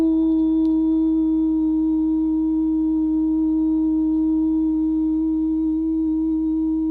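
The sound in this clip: A steady drone tone, like a sustained vowel, holds one unwavering pitch with faint overtones above it. It plays alone and loud for the whole seven seconds, with no talk.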